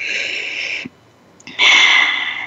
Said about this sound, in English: Let's breathe that in again.